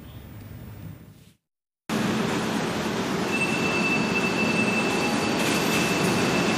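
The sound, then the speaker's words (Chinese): A high-speed train arrives at Nanjing South station at evening. After a quieter stretch and a brief gap of silence, a loud, steady rumbling roar of wheels on rails takes over, with a thin, high squeal running through it. “晚上18:41，高7256次列车抵达南京南站。”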